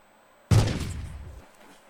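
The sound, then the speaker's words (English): A single gunshot effect from a light gun video game sounds alone as one sudden loud blast whose rumbling tail fades over about a second. “I'm gonna try to light gun shoot him.”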